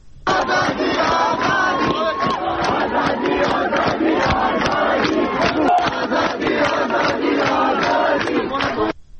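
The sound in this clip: Hundreds of students chant slogans in unison at a university sit-in protest. Their loud, rhythmic chorus of voices carries on steadily throughout before stopping at the very end.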